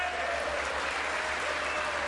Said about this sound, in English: The people in that room should all be better educated on this than to clap for that live.